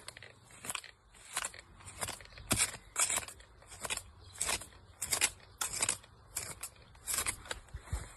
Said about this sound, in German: Wenn der Wollziest mir zu stark über die Kante wächst, ihr Lieben, dann schneide ich ihn einfach ohne viel Geschiss am Rand lang ab.